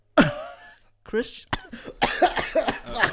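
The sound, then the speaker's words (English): A short harsh cough from someone with something caught in the throat bursts out at the start, followed by people talking. “Something got in your throat there, huh?”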